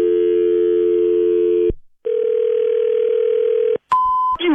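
Telephone tones from someone dialing a number: a loud, steady dial tone stops, a second steady tone follows after a brief silence, then a short, higher beep.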